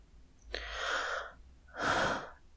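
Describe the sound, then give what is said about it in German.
Heavy breathing straight into a microphone: two loud, airy breaths separated by a short pause, the second one broader and harsher than the first. “Ich atme schon wieder sehr viel in diesem Podcast.”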